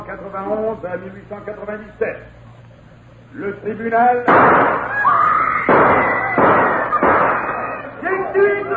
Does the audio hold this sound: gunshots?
yes